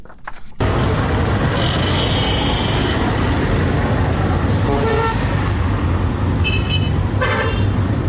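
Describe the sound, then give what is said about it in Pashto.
Constant loud roar of engines and traffic at a large passenger bus terminal in Quetta, with a few vehicle horn toots sounding over it, one of them drawn out, after a brief quieter opening. “دا په کوټه کې د مسافرونکو بسونو یو لوی اډه ده”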